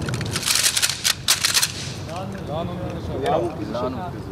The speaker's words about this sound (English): On the shouted orders from their instructors, they practice cocking and locking their machine guns.